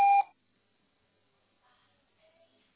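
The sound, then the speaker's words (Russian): A single loud electronic voicemail beep marks the start of message recording. It is a short, steady tone that cuts off sharply and is followed by near silence with faint, brief traces. “Запись сообщения начнется после сигнала.”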